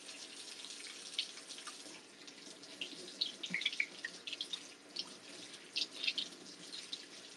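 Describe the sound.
Hot water runs from a kitchen tap while dishes are washed and miso paste is rubbed onto a fish. A steady hiss of flowing water carries irregular brighter splashes throughout, with no talk.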